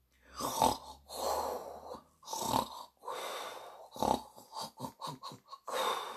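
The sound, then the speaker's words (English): Snoring from a woman asleep in a bed, a loud, irregular run of many rasping snorts and breathy rumbles with short gaps between them and no talk. “As Matron snored away,”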